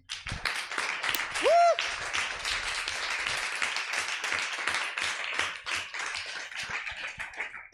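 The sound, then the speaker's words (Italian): Audience applause: dense, steady clapping of many hands at an event, fairly faint and even throughout, with a brief whistle rising out of it early on. “Altro grande applauso, altro grande applauso.”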